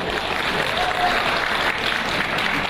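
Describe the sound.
Audience applause at a Mongolian song event, a loud, continuous wash of many hands clapping that holds at an even level throughout, dense and crackling with no single claps standing apart.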